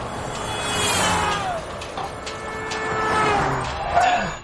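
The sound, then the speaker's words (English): A car engine races out of control because a stuck gas pedal, caused by a broken throttle return spring, will not let it slow down. It makes a continuous loud roar with whining tones, swelling twice in loudness. “and Bob's car won't decelerate. His gas pedal gets stuck, and this is what happens.”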